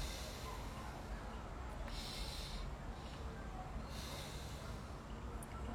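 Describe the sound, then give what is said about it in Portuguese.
Two faint breaths drawn in and let out during a guided neck-movement exercise. They are soft, airy hisses rising briefly above a steady low noise floor. “Inspira quando estiver na frente, perdão. Inspira quando estiver para trás e expira na frente.”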